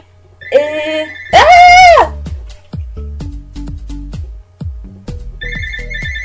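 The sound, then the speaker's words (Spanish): A musical telephone ringtone, loud and alone: a bright sustained tone swells, then a run of short struck notes rings out and decays one after another, with the brighter tones returning at the end. “Sonando está el teléfono. Debemos salir a ver.”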